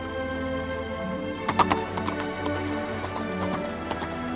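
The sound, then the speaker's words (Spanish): Hoofbeats of a horse galloping across a bridge: quick clusters of hard clops, many in a row, over sustained music. “Cruza a galope el puente hacia Rivendell.”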